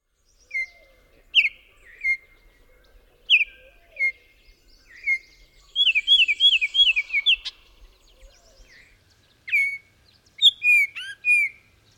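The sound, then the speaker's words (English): Baltimore oriole song of short, loud, clear whistled notes, given in a few separate bursts with a quicker run of higher notes in the middle, heard alone without other sounds. “The Baltimore Orioles that can nest in the area have a short song consisting of loud, clear notes.”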